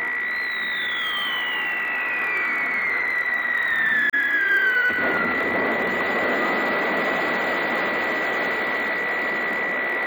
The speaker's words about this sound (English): suddenly, high overhead, a tiny aircraft appeared